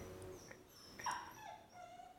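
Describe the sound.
A dog whimpers softly, a faint high whine that rises briefly near the middle, over quiet background hiss.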